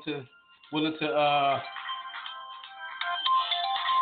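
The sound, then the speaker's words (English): A phone ringtone plays a steady, bright electronic melody for an incoming call, running loud and unbroken for several seconds after a brief voice-like sound at the start. “sorry guys, let me take this phone call.”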